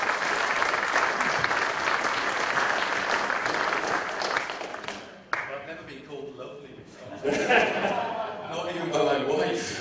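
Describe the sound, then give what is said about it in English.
Audience applause welcoming a speaker onto the stage, a dense, steady clatter of many hands lasting about five seconds before thinning out and giving way to voices. “Let's give him a welcome as he comes.”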